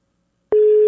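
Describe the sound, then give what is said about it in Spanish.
A telephone busy signal on a call that goes unanswered: after half a second of silence, a loud, steady mid-pitched tone starts abruptly and holds unchanged to the end. “Ahí le estoy marcando a Corina. No me contesta Corina.”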